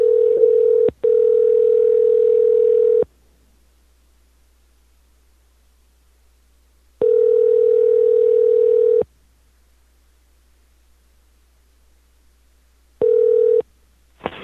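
Telephone ringing tone while calling someone back: a steady mid-pitched tone sounds in bursts of about two seconds separated by roughly four seconds of silence, three rings in all, the last one cut short.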